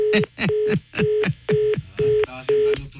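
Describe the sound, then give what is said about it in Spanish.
Telephone keypad tones as a number is dialed again: six evenly spaced beeps in a steady rhythm, each with a sharp click at its onset. “marcar otra vez a ver si me contesta”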